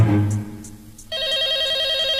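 A telephone rings with a steady, warbling electronic tone that cuts in abruptly partway through after a low hum and carries on loudly to the end.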